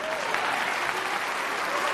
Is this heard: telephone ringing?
no